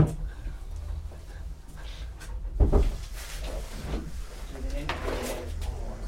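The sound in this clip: A brief knock on a door, a short thud rising once above a steady murmur of people talking in the room.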